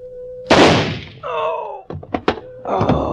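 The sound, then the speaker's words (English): A shotgun goes off in one loud blast with a sharp attack and a decaying rumble. Several shorter knocks and another burst of noise follow. “The gun went off.”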